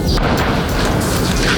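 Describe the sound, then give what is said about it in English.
Israeli airstrikes hit southern Lebanon: a loud, dense, continuous booming rumble with no separate impacts and no pauses. “That's the sound of Israeli airstrikes hitting southern Lebanon.”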